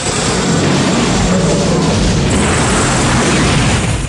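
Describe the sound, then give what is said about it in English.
A missile explosion destroys a village gun nest in a war film, a loud, dense roar and crackle that holds without a break for the whole clip. “The nest is destroyed by a missile.”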